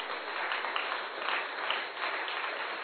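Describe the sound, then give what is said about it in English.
Many hands clap together in a dense, continuous patter, even and moderately quiet for about three seconds, with no voices. “Silence after clap. Clap again. Keep clapping.”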